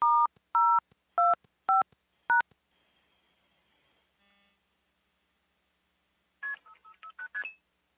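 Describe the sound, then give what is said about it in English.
DTMF touch tones sent over a telephone line: five evenly spaced dual-tone beeps, then a faint steady tone and a short blip, followed by a rapid burst of several more tones. “I just sent regular DTMF tones.”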